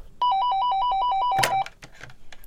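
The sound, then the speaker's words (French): Telephone ringing on an outgoing call: a rapid warbling trill that alternates between two tones, loud and unbroken for about a second and a half, then cut off by a short clunk and quiet. “Bon, vite, faut que j'appelle. Faut que j'appelle Benoît, Benoît.”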